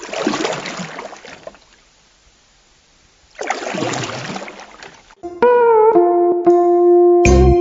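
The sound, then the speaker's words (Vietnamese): Oars sweeping through water as two men quietly paddle a small canoe-like boat: two long swishing strokes separated by a quiet pause, followed by music. “Hai tên đặng em lặng lẽ quơ dầm bơi xuồng đi.”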